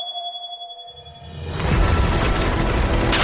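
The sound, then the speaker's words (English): Cinematic trailer audio for the Final Fantasy VII Rebirth video game: sustained tones hold briefly, then a swelling rush at about one and a half seconds bursts into a loud, dense roar that continues to the end. “the biggest one that I'm excited about might just be this one right here. It's Final Fantasy VII Rebirth theme song announcement trailer.”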